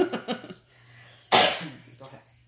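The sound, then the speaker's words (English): Coughing from an itchy throat, one sharp hacking burst between stretches of talk. “Well, I have an itch in my throat, so excuse me if I'm like hacking in the background.”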